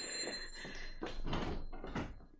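A door being opened for an arriving visitor in a house: a few faint creaking, thudding bursts follow one another, with no voices alongside.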